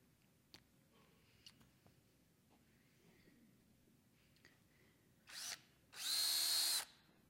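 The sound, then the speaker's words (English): A battery-powered drill whirs in two bursts: a short spin, then a longer, louder, steady high whine, after near-silence with a few faint ticks. “Got a power tool here.”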